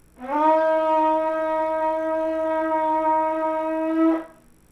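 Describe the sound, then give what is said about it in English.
A long kudu horn shofar is blown in one sustained, harmonically rich blast of about four seconds, with a brief upward bend at the start before holding a steady, deep tone and cutting off cleanly. “And so now he's going to blow the shofar for you.”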